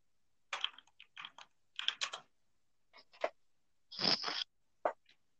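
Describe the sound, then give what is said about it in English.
Someone types a search on a computer keyboard: quiet, irregular clusters of quick key clicks separated by short pauses, with one longer, denser burst near the end. “I just typed in saved heaven.”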